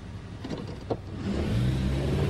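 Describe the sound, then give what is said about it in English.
A car pulls away: a low engine hum swells and grows louder and steadier through the second half, with no voices over it. “Hugging herself, Mary watches Hollis drive off”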